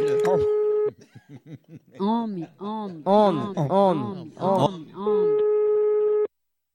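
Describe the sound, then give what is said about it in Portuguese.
Telephone line tones as a phone call is placed: a steady electronic tone at the start and again near the end, with bursts of laughter in between. “Eu vou ligar agora pra Rosalina. Liga lá.”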